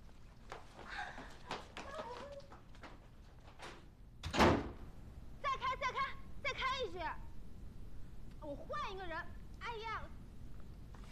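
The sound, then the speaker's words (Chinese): A door being closed gives one sharp, loud thud partway through over low room noise. People talk afterward. “不过，你应该把门关上。”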